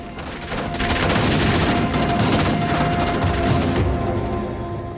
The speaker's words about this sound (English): He pulls the injured Johnny onto the bike while Matt fires at them from the tower. Eddie returns fire, then zooms off on the bike. The gang fires after them, but they disappear into the night.